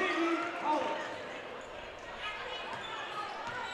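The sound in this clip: A basketball is dribbled on a court during a girls' high school sectional semifinal game, with repeated quick bounces under a commentator's excited voice.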